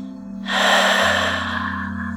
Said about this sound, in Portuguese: Segure, três, dois, um. E expire.